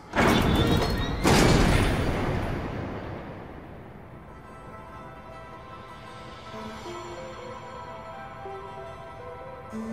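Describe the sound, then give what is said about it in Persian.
A door opening in a video game: a loud, heavy crashing rumble with two strong bursts in the first two seconds, then a long fading low rumble with faint sustained tones underneath. “مطمئنم برادرهای کوچکترم پشت این در قرار دارن. من درو باز میکنم.”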